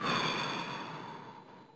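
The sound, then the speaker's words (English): A deep breath is exhaled audibly during a guided breathing exercise after being held: one long, soft, breathy rush of air that gradually fades, with no talking over it. “Again, a deep, comfortable breath. Hold it. 1, 2, and breathe out.”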